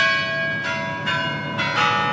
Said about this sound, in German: Schlag 10 Uhr, die Glocken des Kreml in Moskau läuten.